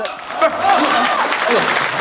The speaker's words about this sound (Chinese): 这不是，您还给我鼓掌，这是这 大家热情啊，因为大家也喜欢京剧